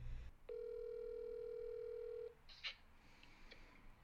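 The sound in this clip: A telephone rings while a call to someone is placed: a single long, steady, mid-pitched ringing tone sounds for almost two seconds, then stops. A few faint clicks follow in a quiet background.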